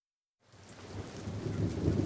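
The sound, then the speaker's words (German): Rain and thunder on a cold Monday morning. After a moment of silence, a rumbling thunderstorm and steady rainfall rise in and grow louder throughout, with no voices. “Es regnet und ist kalt.”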